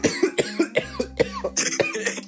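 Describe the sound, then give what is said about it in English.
A man coughs during a conversation about a handheld video game: a rapid series of many harsh, throaty bursts in an uneven rhythm, loud throughout. “just put up his finger and then started coughing.”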